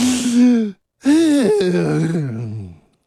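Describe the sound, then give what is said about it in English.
Loud, voiced deep breathing: a short gasping breath, a brief pause, then a longer groaning breath whose pitch sinks toward the end. “We take a deep breath.”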